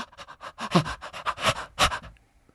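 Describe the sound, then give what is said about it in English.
Rapid heavy breathing, a person panting in quick, loud, gasping breaths one after another in a steady run before trailing off. “Just trying to breathe the most last breaths I possibly can before I expire”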